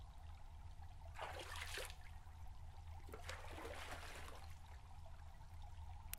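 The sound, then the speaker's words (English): Water trickling while hair is washed. Two soft, hissing pours of water are heard, faint and alone over a low steady hum. “I'm going to wash your hair now. You should close your eyes.”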